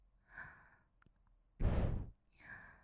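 A woman's breathing: three breaths, with a soft airy one, then a loud, heavy, rushing exhale in the middle, and another soft breath at the end.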